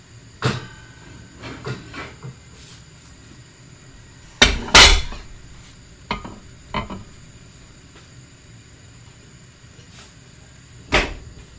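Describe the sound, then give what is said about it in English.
Plates clatter as they go into a hot oven to warm while cottage pie is being made, with a few light knocks and clinks and one louder rattling clatter in the middle. “And now what I'm going to do is I've put some plates in the oven so that they can warm up.”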